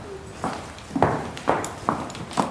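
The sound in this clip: Horse hooves clip-clop at a walk in an indoor riding hall, a pony carrying a young rider. Five distinct, fairly sharp hoof strikes fall in a steady, unhurried rhythm over a faint background.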